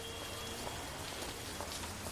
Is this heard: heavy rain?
yes

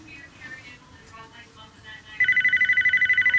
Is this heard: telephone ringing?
yes

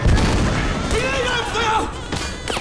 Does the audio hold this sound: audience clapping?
no

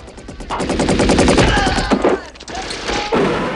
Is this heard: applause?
no

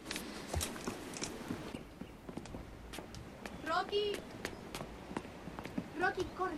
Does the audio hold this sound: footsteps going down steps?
yes

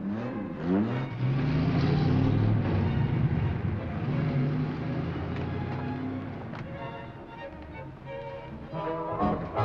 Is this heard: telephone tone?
no

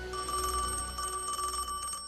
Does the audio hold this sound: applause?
no

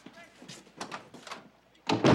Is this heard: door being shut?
yes

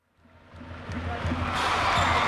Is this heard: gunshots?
no

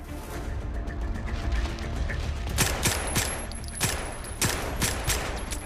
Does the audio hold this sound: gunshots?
yes

